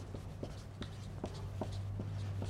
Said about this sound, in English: let me make a little chart here. I'll put the two witnesses here.